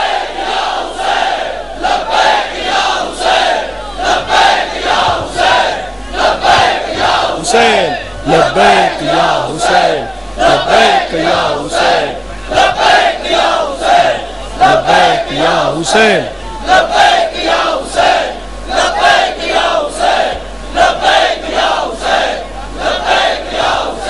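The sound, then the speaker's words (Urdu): A large crowd with raised hands chants the religious slogan "Labbaik ya Hussain" in loud unison. Many forceful, rhythmic shouted phrases repeat in regular pulses, with brief dips between them, throughout. “تو پھر پوری قوت کے ساتھ, پوری قوت کے ساتھ دونوں ہاتھ بلند کر کے ایک منٹ تک سب نعرہ لگاؤ گے, لبیک یا حسین.”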